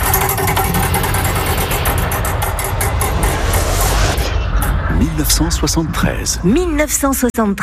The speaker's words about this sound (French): Je lance la roue du temps, elle va s'arrêter sur une année grâce à votre stop, c'est parti.